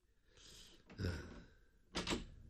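A door is locked firmly with a key, heard as two faint, dull clunks about a second apart.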